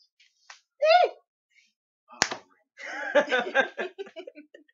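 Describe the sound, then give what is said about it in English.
A single sharp hand slap from a high five, one crisp smack standing out between stretches of excited voices talking before and after. “Giving me a high five there, buddy.”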